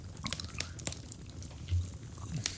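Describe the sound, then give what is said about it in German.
Eating homemade cookies: soft crunching and chewing with many small, quick, irregular clicks and bites, fairly faint, with no talk. “Und jetzt essen wir doch noch im Podcast. Jetzt frisst er die Plätzchen.”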